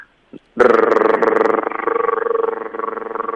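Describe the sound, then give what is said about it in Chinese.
A tongue trill made with steady, even airflow: a rapid, regular rolling rattle that lasts about three seconds, after a brief click. “然后气流要一致， OK, 所以是一致的送气，然后舌头找这个力度就可以导致一个弹舌音，大家可以听一下”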